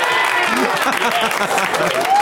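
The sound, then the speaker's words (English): A live audience claps and cheers, with loud, dense clapping mixed with shouting voices throughout. “I wonder if they'll clap.”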